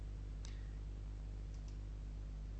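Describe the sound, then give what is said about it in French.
Faint mouse clicks on a button in a web browser: one crisp click early on, then two softer clicks close together, over a low steady hum. “Alors première opération, je vais cliquer sur le bouton afficher l'album”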